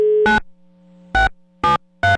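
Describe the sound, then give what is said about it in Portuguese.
Line tones as a telephone call is placed: a short steady tone, then four loud buzzy beeps at uneven intervals over a constant low hum. “Pera aí que eu vou ligar.”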